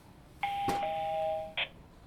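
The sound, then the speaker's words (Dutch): A doorbell rings at a courtyard entrance lined with mailboxes fitted with bells. The sustained, steady electronic tone lasts about a second, with a sharp click near the start and a brief, loud burst at the end. “Een heleboel brievenbussen met bellen.”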